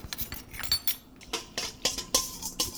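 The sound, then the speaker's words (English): A whisk clinks and rattles against a bowl while dissolving yeast in liquid for soft pretzel dough, giving many quick, irregular metallic taps at a moderate level with no voices. “And speeding it along with the whisk a little bit.”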